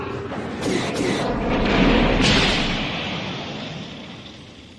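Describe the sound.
Cadmium shells being fired: heavy booming blasts with a deep rumble that swells and then slowly dies away.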